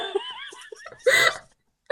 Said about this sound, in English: Sorry, dog is having a backwards sneeze.